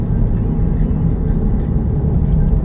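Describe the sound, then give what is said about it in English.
A steady, loud low-pitched rumble from a car with a fault, droning continuously without clear breaks or changes across the whole stretch. “Sorry about the noise. You know, I gotta get my car fixed because it's doing that thing.”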